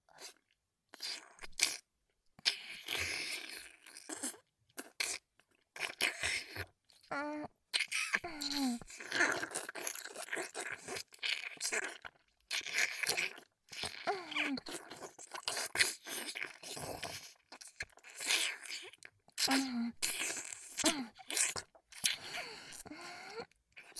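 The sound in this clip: Crunching and chewing as a woman eats, with many wet bites and chomps in irregular bursts separated by brief pauses, and soft vocal sounds between them.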